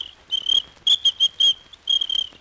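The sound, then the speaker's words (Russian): A small ladies' traffic police whistle blown in a series of short, shrill, high-pitched blasts, followed by a longer warbling blast at the end. “У мене для неї був дамський свисточок.”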